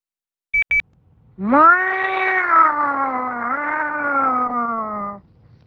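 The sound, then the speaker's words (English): A cat gives one long, drawn-out meow lasting nearly four seconds. It rises at the start, then slowly sinks in pitch. Two short electronic beeps come just before it. “We will sacrifice you to the god of cats. That's right, meow.”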